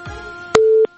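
Telephone busy signal after a call fails to connect: a single short, loud, steady beep that cuts off abruptly, following faint low noise on the line.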